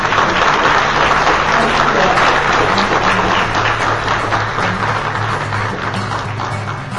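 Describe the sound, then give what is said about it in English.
Sustained audience applause for a keynote speaker at an event, a dense and continuous wash of clapping that stays loud and slowly eases toward the end. “But please, everyone, give a round of applause for our wonderful”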